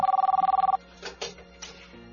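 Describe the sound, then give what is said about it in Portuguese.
A telephone ringing with an electronic ring: a rapid, even trill that lasts under a second and then cuts off, followed by a few faint handling sounds. “Será possível que ninguém ouve esse telefone?”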